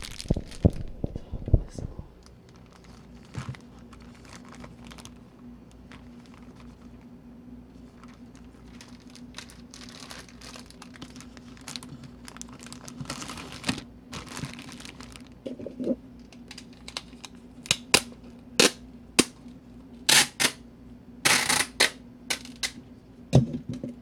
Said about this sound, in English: And now I'm going to tape.